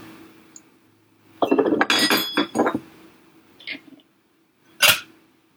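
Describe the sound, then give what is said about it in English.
An egg is cracked into a bowl while mixing an egg-white cocktail, making a quick cluster of sharp clinks and taps, then two brief isolated clicks, with no talking. “once again, we'll crack our egg into a bowl. And I like to do it into a bowl first, just in case there's any shells.”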